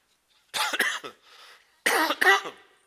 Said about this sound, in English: forgive my coughing